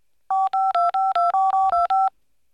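Touch-tone telephone keypad dialing a number: nine quick, evenly spaced DTMF beeps in a steady run, each a clear two-pitch electronic tone, with no ringing after.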